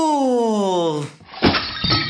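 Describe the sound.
A cartoon-style whistle slides steadily down in pitch as a heavy coin-filled toy falls off a table. A sharp crash follows, then a scatter of jingling, clinking coins.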